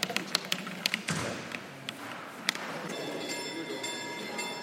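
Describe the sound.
A white cane taps along a tactile guide path in a quick series of light, sharp taps. A steadier rough sliding follows, with occasional faint taps as the cane moves on.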